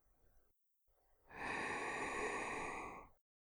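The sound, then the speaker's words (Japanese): A slow, deep breath drawn in through the nose during a guided relaxation exercise: one long, steady, airy inhale of almost two seconds, preceded by a fainter short breath. “深呼吸をします。静かに鼻から息を吸い込んでくださいね。”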